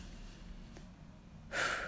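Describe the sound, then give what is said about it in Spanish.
A single quick, deep breath drawn in sharply near the end, brief and breathy against faint background noise. “Para, voy a respirar un segundo”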